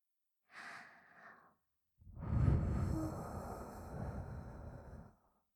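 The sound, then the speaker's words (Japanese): Gentle blowing into the ear: a short, soft breath comes first, then a longer, louder, airy blow that holds steadily for about three seconds before stopping. “お耳、ふうふうしてあげちゃいまーす。”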